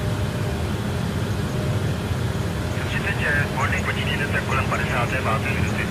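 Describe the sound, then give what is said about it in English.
A steady airplane engine roar from a flight video game as the aircraft accelerates for takeoff. The drone holds level throughout while a voice talks over it in the second half. “my plane is taking forever to go up to speed.”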